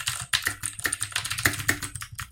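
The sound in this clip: Rapid typing on a Razer BlackWidow Tournament V2 Chroma tenkeyless mechanical keyboard, a dense run of many sharp, clacky keystrokes at an uneven rhythm, loud and alone without talk.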